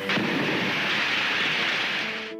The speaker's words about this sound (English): This ray gun ought to stop them.